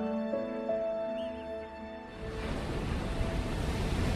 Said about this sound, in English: Penguins swimming back to land, riding the monster waves.